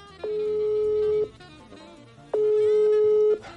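Telephone ringback tone while calling a friend: two steady one-second tones of the same even pitch, separated by a pause of about a second, over a faint background.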